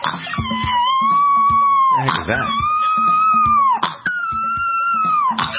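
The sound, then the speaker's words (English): A boxer puppy howls three long, wavering, high cries, loud and close together, with rough snorting bursts breaking in between them. “it's a boxer puppy that can't help snorting when he howls”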